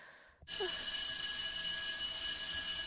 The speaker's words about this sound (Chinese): 嗯，下课铃响了，儿子应该放学了，要赶紧赶过去。